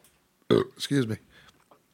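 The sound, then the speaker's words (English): A single loud, low, gurgling burp lasting under a second, with a short voiced tail, then near-silence. “Got to edit that burp out.”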